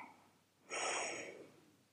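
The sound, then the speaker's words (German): A single deep breath drawn in during a belly-breathing relaxation exercise: a soft, breathy rush that swells quickly, holds for under a second, then fades. It is quiet and heard alone. “Leg mal deine Hand auf deinen Bauch. Atme tief ein”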